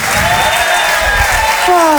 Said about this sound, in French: Faites un tonnerre d'applaudissements, s'il vous plaît, pour Alex Vizorek.